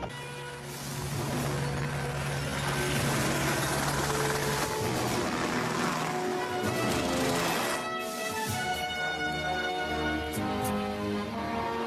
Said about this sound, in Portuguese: Controle de Quincy, aqui é o helicóptero 234 Zulu, indo para o norte.